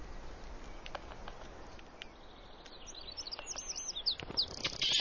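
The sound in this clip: Forest birds calling in mountain woodland: faint, scattered chirps and tweets over a soft hiss, growing busier and more frequent toward the end.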